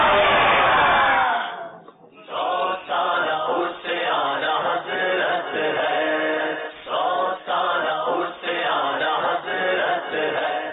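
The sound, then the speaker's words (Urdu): A crowd chants the religious slogan Faizan-e-Ala Hazrat at a devotional verse-recital contest. A lone voice opens, then the group answers in loud, rhythmic, repeated bursts separated by short gaps. “نعرہ لگائیں، گونج پڑ جائے فیضان اعلی حضرت۔”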